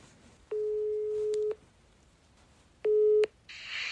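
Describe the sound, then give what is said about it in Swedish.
A telephone ringback tone sounds while a call is being placed: two steady mid-pitched beeps, the first about a second long and the second shorter, then a burst of hissy line noise as the call connects. “Får jag ringa Pontus snabbt bara?”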